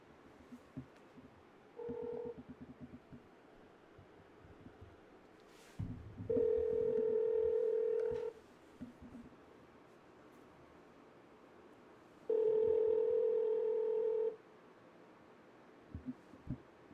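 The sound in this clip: Ringback tone of an outgoing telephone call that goes unanswered: a brief tone, then two long steady rings spaced several seconds apart over faint background hiss.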